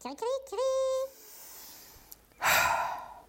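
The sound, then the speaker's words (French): A deep breath is taken: a short voiced sound comes first, then a brief pause, then one loud, airy inhale that tapers off. “il prend une grande inspiration.”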